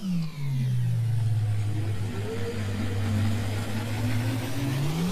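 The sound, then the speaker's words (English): Whirring time machine ride sound effect, a loud, steady engine-like hum that dips in pitch at the start, holds low under rushing noise, and climbs again at the end. “I need you to buckle up and be ready, because we're going to have to ride the Hustle Share time machine.”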